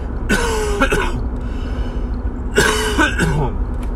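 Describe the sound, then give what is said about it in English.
A person coughing: two rough, throaty coughing bursts separated by a pause of about a second and a half, each made of a few quick hacks, over a steady low background hum. “excuse me while I cough”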